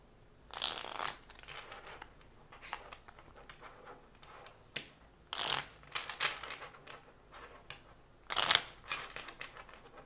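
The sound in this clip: Tarot cards being shuffled with no talking: soft, dry rustling and crinkling runs throughout, broken by a few louder, sharp riffling bursts.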